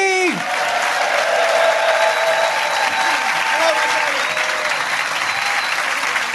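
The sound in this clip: Steady, dense audience applause welcomes a guest onto a comedy chat show. It holds at an even, loud level throughout with no clear break.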